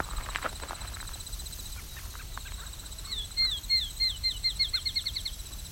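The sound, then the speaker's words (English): A raven calls from pretty far off, with a rapid run of short, parrot-like calls repeated in a steady rhythm, above faint background chirps. “Okay, you can start to hear a raven calling.”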